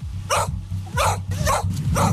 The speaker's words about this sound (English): Well, they're the barks of the sniffer dogs being used at stores suspected of selling the counterfeit items.